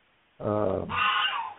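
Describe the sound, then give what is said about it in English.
Domestic geese honking outside, two loud, nasal honks in quick succession, the second brighter and longer, standing alone without talk. “Sorry, you know, our geese are coming up. I had to shut our door.”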